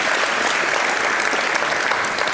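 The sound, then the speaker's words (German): Audience applause at a hacker community event, dense steady clapping that holds at an even level throughout, with no voices over it. “Dafür einen Applaus bitte.”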